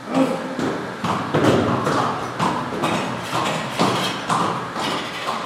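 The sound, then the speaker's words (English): Heavy, rhythmic thumps of a horse working a mill that crushes cooked agave for artisanal mezcal at a small distillery. Many steady, evenly paced beats repeat over a continuous dull rumble. “That's the sound of a horse crushing cooked agave before the distillation process.”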